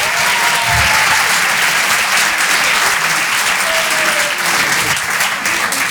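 Audience applause at a comedy stage show: a dense, steady wash of clapping that stays loud from start to finish with no breaks.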